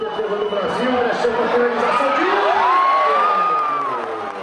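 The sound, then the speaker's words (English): A crowd of Korean American soccer fans cheers in the streets of Los Angeles before dawn during a Togo versus South Korea match, with loud sustained shouting, whoops and a rising then falling yell above the roar. “The game, Togo versus South Korea, drew thousands of Korean Americans to the streets well before dawn. A giant screen was trucked in, and a battalion of drummers led the crowd in chanting for the home team.”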